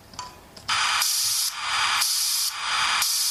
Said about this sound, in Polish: Wajsala zaprezentowała swoje najnowsze dziecko, to będzie RS-41. Spróbuję wam to puścić,